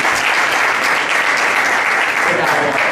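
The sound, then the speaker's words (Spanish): Applause from an audience at a public event welcoming a guest: dense, steady clapping that stays at an even, loud level throughout. “Un aplauso, por favor.”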